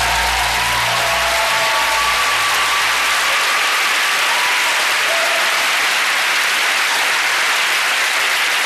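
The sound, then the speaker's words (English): Loud, dense audience applause with many hands clapping at once, a thick steady wash of claps that holds at full strength for the whole stretch. “Give us a little cheer, it won't make any difference, but give it a little cheer.”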